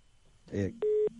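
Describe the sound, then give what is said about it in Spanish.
A steady telephone tone sounds as a phone call cuts off. A brief voice comes first, then a clear mid-pitched beep and a fainter, lower tone. “ay, se le cortó la comunicación a Carlos.”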